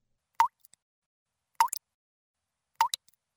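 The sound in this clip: Three short, sharp plops, like a dry kitchen faucet sputtering with the water shut off. They come at an even pace, each followed by a fainter drip or two, with silence in between.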